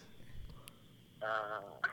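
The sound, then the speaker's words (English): A rooster crows faintly in the background, giving one strained, wavering call in the second half, with a brief sharper note just after it, over a quiet, low hum. “There's a rooster in the background.”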